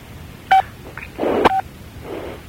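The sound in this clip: A telephone keypad tone sounds as a participant on a conference call presses key 6 to mute. Two short, clear beeps come about a second apart, with some muffled background noise between them.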